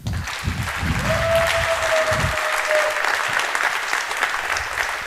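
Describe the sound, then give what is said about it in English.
An audience applauds to welcome a speaker at a presentation on police body cams. Steady, dense clapping runs throughout, with a long sustained whistle in the middle. “So please welcome, give a warm welcome for Rio Senger.”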